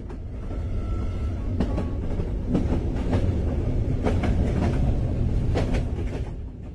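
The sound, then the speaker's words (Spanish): A train travelling on rails towards Castellón, with a loud, steady rumbling roar and a run of repeated clicking wheel beats over the joints, sustained throughout. “En el viaje en tren, mientras se aproximan a Castellón, Silvi y Lara”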